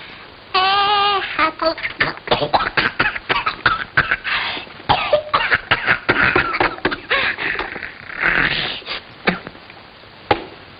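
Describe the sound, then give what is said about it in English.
Coughing and choking after a peanut got stuck in the throat: many harsh, rapid bursts of coughs and sputters run for about ten seconds, mixed with strained voiced sounds. “Excuse you, see, one of them peanuts got stuck in her lummox.”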